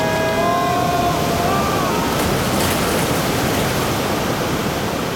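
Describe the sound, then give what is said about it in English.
River rapids rushing beneath a paddled boat, a dense, loud, unbroken roar of white water that stays even from start to finish. “Wait, what's that sound? Oh, no. I think it's... Rapid!”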